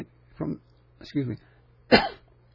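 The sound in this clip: Throat clearing from someone with coconut stuck in their throat: three harsh, rasping bursts, each under half a second and separated by short pauses, with the last one the loudest.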